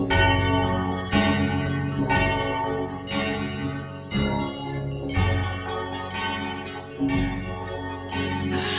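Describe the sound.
Church bells peal in a loud, continuous cascade of overlapping strikes, each ringing with rich, shimmering overtones. The clangs recur roughly every second in a steady pattern, with no voices heard.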